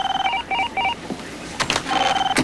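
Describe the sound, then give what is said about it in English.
An electronic telephone rings in three short warbling bursts of paired tones, followed by a couple of clicks and then another steady run of ringing tones. “Sabian walks to the phone, but doesn't answer it. Are you going to get that or what?”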